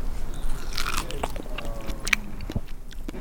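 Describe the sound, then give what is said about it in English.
Someone bites into and chews juicy food, with wet, crunchy bites and squelching chews in an irregular rhythm, fairly loud and close. “That is delicious. I just spilled some juice on myself. It's so juicy.”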